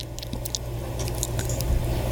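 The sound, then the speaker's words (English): Wet, squishy mouth noises from an ASMR recording of someone drinking with lip smacking, a continuous run of soft smacks and slurps over a low steady hum. “It's ASMR of like someone drinking stuff with the whole the lip smacking and it's like it makes me fucking ugh.”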